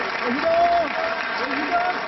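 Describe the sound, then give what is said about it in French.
Palace staff clap and cheer in the courtyard of the Élysée Palace for a departing president. The applause is steady and fairly loud, and a voice talks over it. “À cet instant, Nicolas Sarkozy n'est déjà plus président et dans la cour, le personnel l'acclame.”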